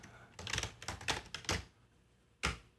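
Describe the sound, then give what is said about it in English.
Someone types a search on a computer keyboard: a quick, uneven run of many clacking keystrokes, then a short pause and one final firm key press. “I'm just going to type in real quick, rustic picture frame.”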